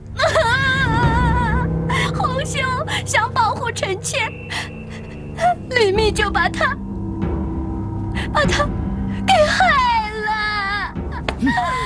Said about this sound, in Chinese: 为什么刚刚回来就无缘无故的哭了？